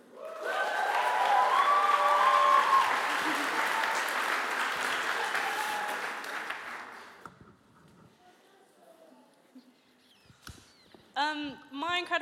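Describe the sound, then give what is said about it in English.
Applause at a church service as people return to their seats: loud, sustained clapping for about seven seconds that then tapers away, before a voice begins speaking at the end. “Let's applaud them as they go back to their seats.”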